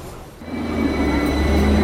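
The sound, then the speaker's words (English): A narrow double-decker tram approaches, its low rumble of wheels on rails growing steadily louder, with a faint high tonal whine running above it. “Here it comes, one of the slim trolley buses known as a ding ding because of the bells that used to ring on board.”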